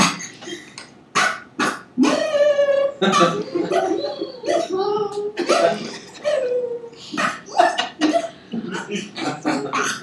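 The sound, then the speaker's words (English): A person imitates a terrier-beagle dog barking, producing a rapid run of many short, loud, voiced barks and yelps with rough, throaty edges. “Angela's philosophy, a cog terrier beagle. And my bark would sound like this.”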